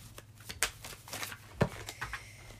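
Tarot cards being shuffled by hand give several quick, papery riffling bursts and soft rustles, one after another, with no voices.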